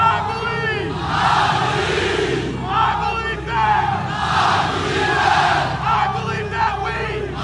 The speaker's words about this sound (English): First off, he stole it from the soccer fans of the world. Oh, this one, yeah. Yeah, this chant.